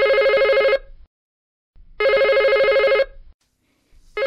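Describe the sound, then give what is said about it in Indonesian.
Home telephone ringing in a family room: loud, trilling electronic rings, two full bursts about a second long separated by silence, then the start of a third. “telepon rumah berdering”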